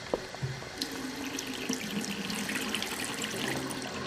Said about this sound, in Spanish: kannst du bitte die Tomaten waschen? Ya, sicher. Lavo los tomates inmediatamente.